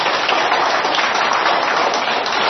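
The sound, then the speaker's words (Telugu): Audience at a meditation talk applauding: dense, steady clapping with an even crackling texture that holds at the same loudness throughout, without voices. “ఒకసారి చప్పట్లు కొట్టాలి లేదా వాళ్ళందరికీ?”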